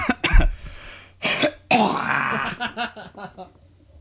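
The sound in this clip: A man clears his throat before performing a strained character voice. Rough, gravelly rasps come in a few loud, harsh bursts, followed by fainter, lower throaty sounds that trail off.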